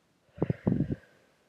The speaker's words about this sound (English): Inhale, hold, and exhale.